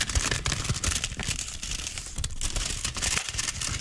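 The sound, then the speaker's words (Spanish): A small paper envelope for storing discs is handled and crinkles in quick, irregular bursts of dry rustling and crackling. The sound is fairly faint and heard alone. “Y yo no sé si alguien se acuerda que mandó una carta en un sobrecito que suena así.”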